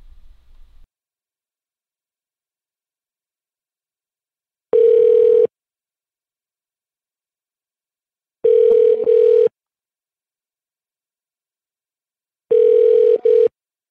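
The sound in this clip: Telephone line tones sound while a call is placed: three steady mid-pitched beeps, each about a second long, separated by long stretches of silence. A faint low rumble is heard at the very start.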